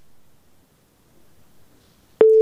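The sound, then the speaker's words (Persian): A telephone tone after a listener's call drops on a phone-in: one loud, steady beep cuts in abruptly at the very end, after near silence. “تماسی شنونده ما هم قطع شد.”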